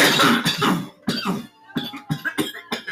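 Harsh coughing after a dab hit hurt the throat: a long rasping cough, a brief second one, then a rapid string of short, sharp coughs, fairly loud with brief gaps between.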